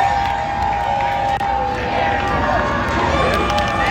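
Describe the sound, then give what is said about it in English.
Stadium crowd of football fans roaring after a goal in a FIFA World Cup match between Canada and Qatar, a dense, loud, unbroken wall of cheering and shouting that holds steady throughout. “That is the sound of fans as Canada scored its sixth of six goals against Qatar.”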